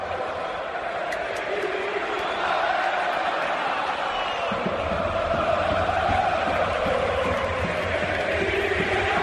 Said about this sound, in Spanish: El público del Bernabéu cantando